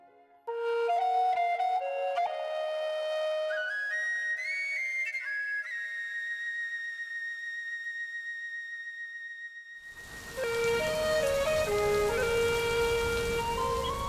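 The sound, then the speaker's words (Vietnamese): Heavy rain on a July night in a poor southern countryside village bursts in as a loud, dense hiss near the end, after a long stretch of steady whistling tones that rise stepwise in pitch. “Chỉ còn tiếng sấm chớp rì đùng, tiếng mưa rít từng cơn,”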